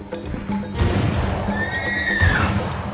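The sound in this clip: A horse whinnies while its Seminole rider heads back to camp in 1835: one thin, high neigh rises partway through over muffled, low-fidelity rumbling.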